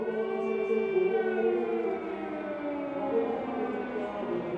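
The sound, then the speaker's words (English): Air raid sirens sounding during a funeral for three fallen soldiers in Lviv, Ukraine: a sustained, layered wail with slowly wavering pitch that stays loud and steady throughout, with no voices. “the air raid sirens start up, but no one moves and no one budges.”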